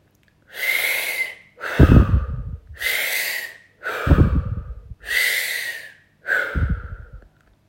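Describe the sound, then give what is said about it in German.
Deep breathing during a guided meditation: three slow full cycles, each pairing a long airy draw with a heavier, rushing gust of breath. The breaths are loud and clear, separated by short pauses, with no talk. “Atme weiter, ganz tief bis in den Beckenboden.”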